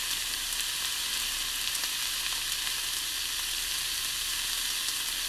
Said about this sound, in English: We're going to take a quick listen to the steak.